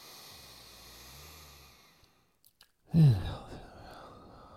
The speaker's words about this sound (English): you run to the TV, take a deep breath in through the nose